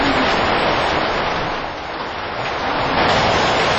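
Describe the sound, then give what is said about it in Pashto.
Thunder in a storm: a loud, continuous rumbling roar with a heavy, rain-like hiss, steady throughout apart from a slight dip in the middle. “دغه وخت د تندر آواز شو”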